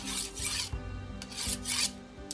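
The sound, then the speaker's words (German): A dagger being sharpened on a whetstone: harsh, gritty rasping strokes repeat in a steady back-and-forth rhythm, each a few tenths of a second long and fairly loud, with no voices. “Ich schärfe meinen Dolch.”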